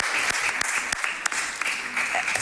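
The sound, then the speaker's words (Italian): Applause for a speaker at a conference on Italian cooperation with the Emirates in cyber and space, a dense clatter of many hands. A few sharper individual claps stand out from the steady wash. “Bene, grazie, un applauso ancora a Marco Lisi.”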